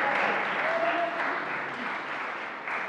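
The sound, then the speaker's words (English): Audience applause at a church licensing service: a steady wash of many hands clapping, loud at first and easing slightly over a few seconds. “I think we should probably give Tim a round of applause for taking on Trachonitis”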